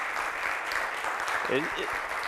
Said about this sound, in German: Einen Runde Applaus. Danke.